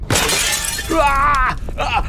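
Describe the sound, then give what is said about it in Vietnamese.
Crash of an oil lamp falling to the floor and shattering: a loud burst of breaking at the start, followed by a voice crying out over the noise. “Cái đèn dầu rơi xuống đất bể tan tành”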